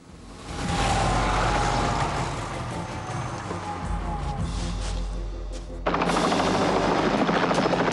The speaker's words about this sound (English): The choppers land.